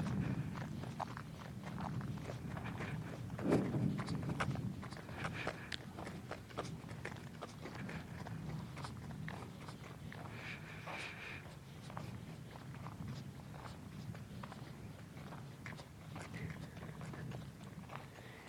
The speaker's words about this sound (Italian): Il ritmo dei passi che continua a cullarmi e fa in modo che non mi fermi, fa in modo che non possa guardare indietro, fa in modo che prosegua sempre in avanti